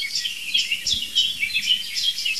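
Blackbird and song thrush singing: high, bright phrases of chirps and warbles recur in quick succession, fairly soft and steady throughout with no other sounds.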